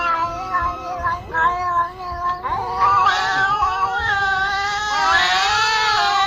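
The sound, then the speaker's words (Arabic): A cat on a bed meowing and caterwauling loudly, its drawn-out, wavering cries so layered they sound like two or three cats at once. Short repeated calls come first, then long continuous wails. “القطة صوتها زي ما يكون صوت قطتين ثلاثة مع بعض.”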